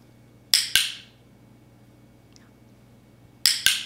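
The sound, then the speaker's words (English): Dog training clicker snapping out four sharp, bright clicks in two quick pairs, one pair near the start and another after a quiet gap. “That was the sound of a clicker. And what a clicker does is it helps us tell the dog that they've done a good job and that they're going to get a reward.”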